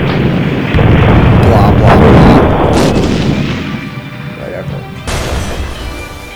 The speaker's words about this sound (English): Stating the obvious, cruise missile.